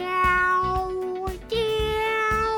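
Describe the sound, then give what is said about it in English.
Cat meowing: two loud, long, drawn-out tonal meows run back to back, and the second one is slightly higher in pitch. “Who let in a damn cat?”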